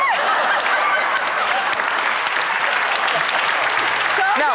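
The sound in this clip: Studio audience applause as Stevie Wonder appears on stage: dense, steady clapping that stays loud from start to finish.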